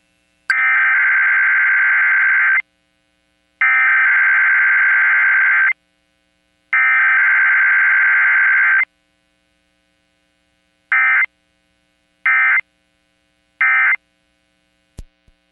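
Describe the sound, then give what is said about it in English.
Emergency alert system test tones: three long, steady electronic tones of about two seconds each, separated by silent gaps, then three short beeps in quicker succession. All are loud, mid-pitched and even, with no talking. “What you just heard was a test from the emergency alert system.”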